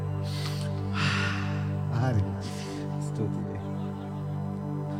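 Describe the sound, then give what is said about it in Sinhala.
Deep, forceful breaths are drawn during a guided breathing exercise, a few loud airy rushes rising over a steady droning tone. “හයියෙන් හුස්ම ගන්න.”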